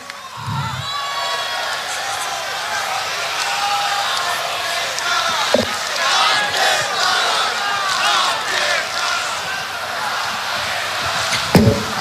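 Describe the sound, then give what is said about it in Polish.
A large music festival crowd cheers, whoops and applauds for the crew in a dense, loud, unbroken roar of voices and clapping, with a couple of sharper shouts or bangs cutting through midway and near the end. “Nagrodźcie ekipę brawami.”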